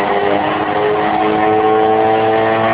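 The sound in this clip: A 40-horsepower flying platform engine roars as it lifts off, a loud, continuous buzzing drone with stacked harmonic tones that stays steady and strong for the whole stretch, with no talk over it.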